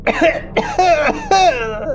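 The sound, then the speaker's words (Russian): A man breaks into a fit of convulsive coughing, with several harsh, strained, voiced hacks coming in quick ragged bursts, loud and with no other sound around them. “Корнели зашелся в припадке судорожного кашля.”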